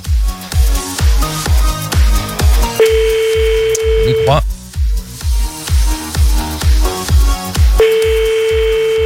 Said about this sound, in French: on va appeler un autre parce que celui-là décroche pas